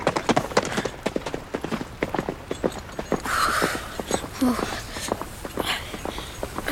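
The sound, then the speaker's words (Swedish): Horse hooves clip-clop at a steady walking rhythm as a rider leaves with a group of soldiers. Many even, sharp hoofbeats continue throughout, with a brief voice partway through. “Han bara red därifrån och tog de andra soldaterna med sig.”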